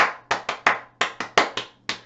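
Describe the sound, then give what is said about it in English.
Congregation clapping hands in unison during a church praise song, sharp crisp claps in a steady rhythm, about ten in all, loud over a faint low hum. “Now praise him with your hands, let's clap now.”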